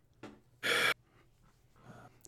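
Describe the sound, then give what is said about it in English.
A quick, forceful breath drawn in during a tabletop roleplaying game session stands out loudly, with softer breathy sounds before and after it. “I just take a deep breath inside of myself”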